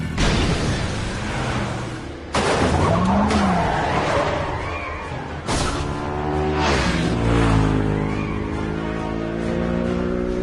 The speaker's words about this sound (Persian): ماشینو نگه دار